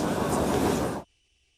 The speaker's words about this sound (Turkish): Halkalı Marmaray'dan yeni metroya binen Cumhurbaşkanı Vatman koltuğuna oturdu.